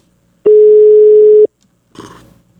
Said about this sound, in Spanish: En este momento le estoy marcando al Capi Ramón Valverde.